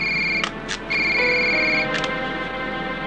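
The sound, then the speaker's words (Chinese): Telephone ringing: a bright, steady electronic ring tone that swells in short repeated bursts over about three seconds, with no voices. “接电话。”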